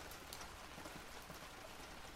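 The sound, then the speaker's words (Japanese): Steady rain falling: a constant, soft hiss of drops with faint scattered pattering, even in level throughout and without any voices. “それにしてもよく降るね。 うん、もうずっと前から降ってる。”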